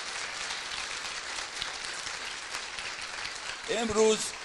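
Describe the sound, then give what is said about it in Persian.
An audience claps firmly for themselves at a talk, with a dense, steady wash of applause throughout and a brief voice rising over it near the end. “به افتخار خودتون کف محکم بزنید.”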